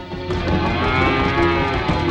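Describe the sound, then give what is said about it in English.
Cows mooing in a barn beside a grain silo: deep, drawn-out lowing with rich harmonics over a steady, dense background, the calls overlapping and sustained throughout. “Fergie slowly makes his way through the cows”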